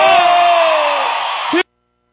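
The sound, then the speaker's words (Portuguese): A crowd shouts on cue when asked who is happy, a loud, sustained mass yell lasting about a second and a half, its pitch sagging slightly before it cuts off abruptly into silence. “Quem tá feliz dá um grito!”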